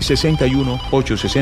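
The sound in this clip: Telephone ringing with an incoming call, a loud electronic ring in a few short bursts of steady, layered tones separated by brief gaps.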